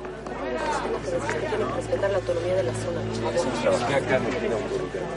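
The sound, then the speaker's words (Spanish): A crowd of neighbours heckles and surrounds police, their many overlapping voices merging into a steady, dense babble of shouting and chatter that holds at an even loudness throughout. “Allí hay una multitud de vecinos rodeando e increpando a la policía.”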